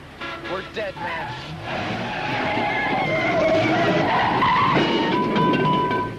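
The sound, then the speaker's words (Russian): Tires squeal as a car skids while driving head-on toward the listeners. The screech is loud and wavering, lasts several seconds, and is preceded by voices. “Они пьяные, что ли? Прямо на нас едут.”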